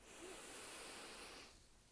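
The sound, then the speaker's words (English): One slow, deep breath drawn in, a soft and steady airy hiss lasting about one and a half seconds before it tapers off, faint and alone. “And start to come out of this body scan with one big deep breath. Deep breath in.”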